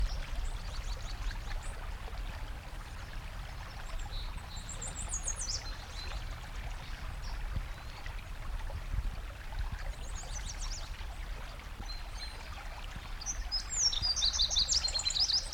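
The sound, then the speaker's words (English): A fox sparrow sings faint, sweet phrases at intervals over steady running water, with a clearer burst of song near the end. “fox sparrow number one.”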